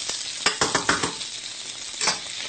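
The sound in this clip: Food browning in a pan with a steady, fairly quiet sizzle, broken by several sharp clinks and scrapes of stirring.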